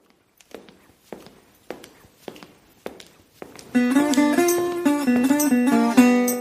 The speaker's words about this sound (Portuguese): Solta a vinheta.